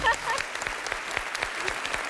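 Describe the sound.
Applause from a quiz show's audience, a dense and steady patter of many hands clapping at an even level, with a voice faintly underneath.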